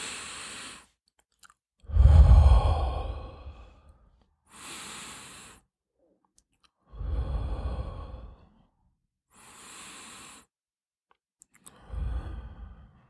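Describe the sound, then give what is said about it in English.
Three slow, deep breaths taken to calm anxiety, each a long, loud, breathy rush, alternating with softer airy breaths and separated by pauses of near silence. “when I'm feeling anxious or I'm in an anxious situation, I take 3 deep breaths.”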